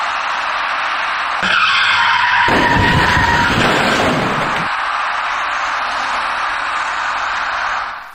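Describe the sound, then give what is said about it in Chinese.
A box van still speeding on a highway collides with slowing cars. A sharp, high tyre screech is followed by a burst of broad crunching crash noise lasting a couple of seconds, with loud road noise before and after. No talking. “然而，就在这时，一起相撞事故发生了。您注意看，画面中箭头所指的那辆厢式货车。”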